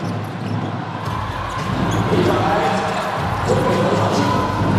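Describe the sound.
A basketball bounces on the court during a 2026 CMG amateur basketball championship game between the host Zhejiang Cangnan team and the Hohhot team, with repeated dribble thumps under a steady wash of arena noise.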